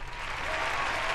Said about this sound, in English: Give me the round of applause set up.